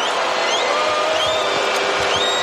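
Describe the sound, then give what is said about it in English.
A hostile arena crowd jeers Karl-Anthony Towns at the free-throw line during a Knicks versus Spurs NBA game, a continuous loud roar of massed voices that holds steady throughout. “Hostile crowd giving it to Cat.”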